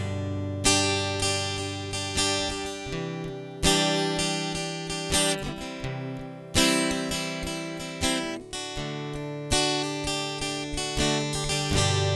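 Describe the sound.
Guitar strummed with a pick, giving loud, bright, crisp chords in a steady run of many strums that ring into each other, with no voices.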